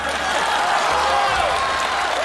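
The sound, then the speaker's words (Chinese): Audience applause fills a wedding-themed stage sketch with dense, even clapping. It stays loud and continuous without a break for about two seconds. “朋友们鼓鼓掌吧！”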